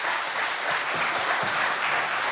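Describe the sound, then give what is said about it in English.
An audience clapping to welcome a guest preacher at a morning church service, a steady, dense round of applause that holds even throughout with no voices over it. “if you could do me a favor this morning, you put your hands together and welcome Gabriel Hughes to share God's message.”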